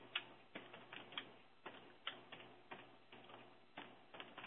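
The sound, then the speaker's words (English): Keys click faintly as someone types a Skype message on a computer keyboard, with many quick taps in uneven bursts and no talking. “all day long, I'm going to type him back here a note”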